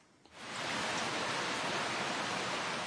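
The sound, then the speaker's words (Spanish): Heavy rain sets in abruptly after a brief quiet moment, becoming a dense, steady, loud hiss of falling water that holds unchanged to the end. “¡Está lloviendo! En japonés, este sonido se representa así. Zaza. Se dice zaza para describir una lluvia fuerte.”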